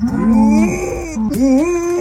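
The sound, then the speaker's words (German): A dog imitates a cow's moo in place of barking, giving a loud, drawn-out tonal lowing call that bends upward in pitch near the end, with no other sounds around it. “Sie liebt Kühe und wenn die Moon, muss Lucy immer mitmachen. Statt bellen klingt das also so.”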